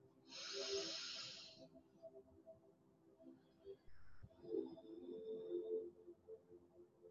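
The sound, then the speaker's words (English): A single airy exhale from a guided chest-breathing exercise rushes out near the start, a soft breathy hiss over a faint low tonal hum, followed by quieter murmuring texture. “Inhale. Expand your chest upwards, outwards, and upwards. And exhale.”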